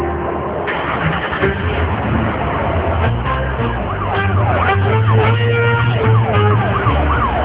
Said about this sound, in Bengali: নাফিস হাসান এবং ইমতিয়াজ আহমেদ দুজনে মিলে পুলিশের গাড়িতে করে রওনা হলো তাদের গন্তব্যে।